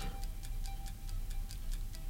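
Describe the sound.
A countdown clock on a TV quiz show ticks quickly and evenly, a faint, regular run of light clicks with no voices over it.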